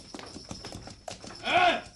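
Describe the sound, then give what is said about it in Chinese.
Hooves clip-clop in a quick, steady rhythm as a horse-drawn carriage approaches and turns into a lane at night. A louder tonal sound rises near the end. “阿爹啊，我听到有马车入紧嚟我哋条巷啊，一定系家姐翻嚟啦。”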